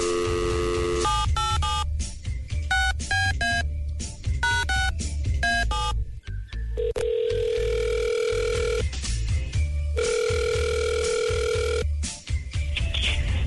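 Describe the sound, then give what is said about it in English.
A telephone call is dialed and placed. A quick run of touch-tone dialing beeps is followed by steady, moderately loud ringback tones, with two long rings separated by a short pause. “Okay, we're going to give her a call right now.”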